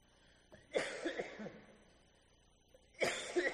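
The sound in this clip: A man coughs during a lecture, in two short coughing fits, each a rough burst of a few quick hacks, the second coming after a quiet pause of about two seconds.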